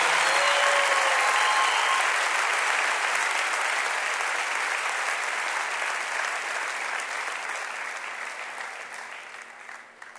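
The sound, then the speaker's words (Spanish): An audience claps steadily for a performer, a dense wash of many hands that starts loud and gradually thins and fades over about ten seconds. “Un aplauso para Lili, por favor.”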